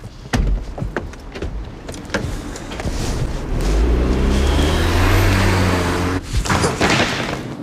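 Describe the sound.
Car doors open and close with sharp clunks as people get into a car, followed by a steady, low motor hum and a final thud.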